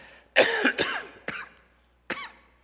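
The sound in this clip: Coughing from someone sucking on a piece of ginger to soothe a cough: four sharp, raspy bursts, with two close together, a shorter third, and a last one after a pause, no talk.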